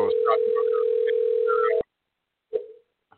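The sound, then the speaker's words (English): A telephone ringback tone on an unanswered call: one long, steady, mid-pitched tone that cuts off after nearly two seconds, followed by a brief tonal blip and a faint click, with faint voices under the tone. “Answer your goddamn phone.”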